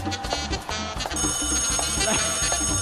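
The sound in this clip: A telephone rings during a live musical "debate" event, its ringtone a loud, dense tonal pattern with rhythmic low pulses beneath, running continuously from start to finish with no talking over it.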